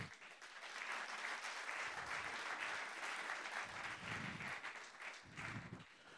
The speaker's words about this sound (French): Acclamons pour le Seigneur.